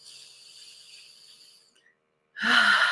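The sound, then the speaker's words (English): Deep breath taken during a guided morning group meditation: a long, soft, airy inhale lasting over a second, a short silent pause, then a louder, fuller breathy rush as the exhale begins. “take a beautiful deep breath”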